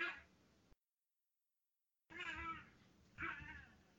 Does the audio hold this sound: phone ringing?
no

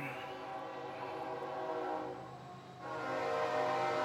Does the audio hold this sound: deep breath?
no

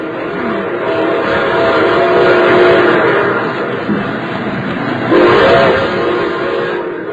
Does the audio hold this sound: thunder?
no

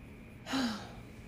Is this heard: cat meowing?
no

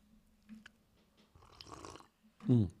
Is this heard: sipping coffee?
yes

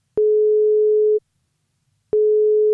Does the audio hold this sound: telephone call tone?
yes

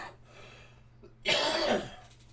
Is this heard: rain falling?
no

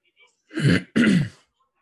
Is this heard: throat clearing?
yes

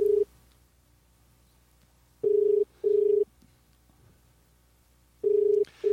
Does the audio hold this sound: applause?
no

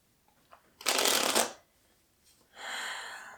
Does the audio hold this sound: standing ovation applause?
no

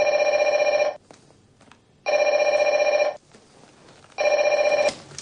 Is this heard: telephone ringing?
yes

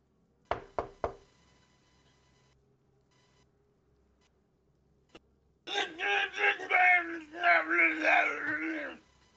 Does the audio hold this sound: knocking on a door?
yes

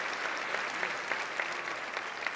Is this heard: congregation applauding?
yes

